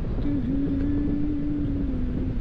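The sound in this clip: Wind rushing during a flight in cold, blustery weather, a steady dense rumble with a faint droning tone held through most of it.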